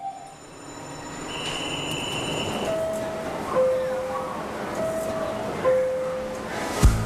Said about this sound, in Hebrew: את יודעת מה זה דווקא הרעיון לא רע שליווית אותי לתחנה? אני פשוט אוהבת רכבות.